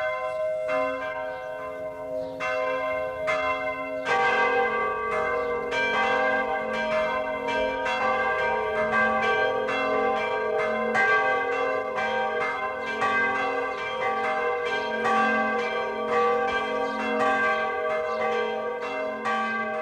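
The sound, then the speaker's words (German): Noon bells ring from a Catholic pilgrimage church in the Upper Palatinate Forest, several bells sounding together in a continuous, overlapping peal with rich ringing tones, steady and loud throughout with no voices. “Es ist 12 Uhr. Das Mittagsläuten kommt heute von der katholischen Wallfahrtskirche St. Marien in Pertoltshofen im vorderen Oberpfälzer Wald.”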